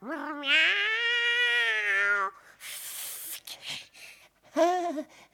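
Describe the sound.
A cat in a children's fairytale meows: one long, drawn-out, strongly tonal meow, then noisy rustling, then a second, shorter meow. No talking.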